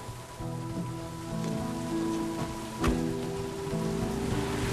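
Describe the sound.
Steady rain falls on a dark street at night outside a hotel where a car waits. It makes a constant even hiss with one brief sharp tap near the middle, under low sustained tones.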